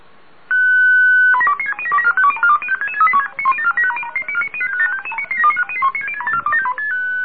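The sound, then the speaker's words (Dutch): ROS digital radio mode tones received in single sideband: one steady tone, then a rapid, loud stream of short beeps hopping between pitches, heard alone with no talk. “Heel kort even de vrolijke toontjes, dan weet iedereen waar het over gaat. Dit hoor je overigens in enkel zijband als je naar Roos zit te luisteren.”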